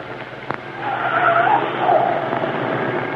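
A car turning into a driveway and stopping, its tires giving a hissing, skid-like rush that swells after a faint click and then holds at a steady, moderate level to the end.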